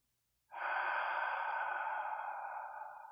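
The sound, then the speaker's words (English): A single long inhalation drawn through one nostril, a soft, airy, steady hiss that starts abruptly and tapers slightly as it continues. “breathing in through your left nostril only”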